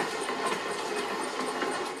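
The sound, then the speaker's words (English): A passenger train carrying evacuees, from Poltava to Uzhhorod, arrives at track 3 of Uzhhorod station with a steady, moderately faint rumble and hiss, faint rhythmic wheel clacks running through it, and no voices. “trains with evacuees roll in. Train Poltava-Uzhhorod is arriving to track number 3.”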